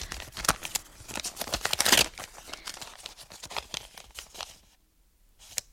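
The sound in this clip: An envelope is torn open with a long run of crackling, crinkling paper rips in many quick bursts, loudest near the middle, then a short quiet gap and one last crinkle.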